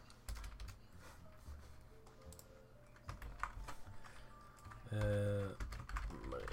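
Quick clicking of fingers typing on a computer keyboard. Many light keystrokes come in bursts and pauses at a fairly quiet level.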